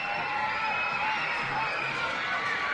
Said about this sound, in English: the crowd going nuts once again for the free passes.